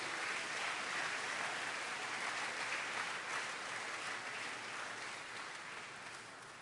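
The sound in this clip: A church audience applauds to welcome visiting apostles, bishops and church leaders: an even wash of many hands clapping that holds steady and tapers slightly toward the end.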